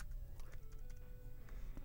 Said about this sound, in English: Type something longer.